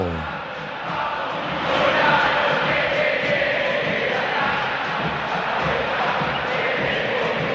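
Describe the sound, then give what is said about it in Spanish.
A football crowd roars at the Monumental stadium as River Plate and Rosario Central take the field. The dense, continuous roar of shouting and chanting swells louder after the first second and then stays high. “Allí están River y Rosario Central y el público, habla el Monumental. ¡Escuchalo!”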